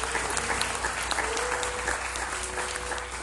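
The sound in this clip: An audience applauds to welcome first-time guests, a dense, steady clatter of many hands clapping that continues without a break.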